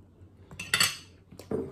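Cutlery spreads butter, jam and cream on homemade scones: a few short, fairly faint scraping and clinking bursts with no talk.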